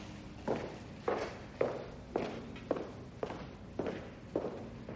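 Footsteps of a person walking out of an office, eight evenly paced, moderately quiet steps, each a soft heel strike in a steady rhythm, with no voices.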